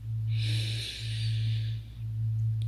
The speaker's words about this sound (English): Deep breath in through the nose.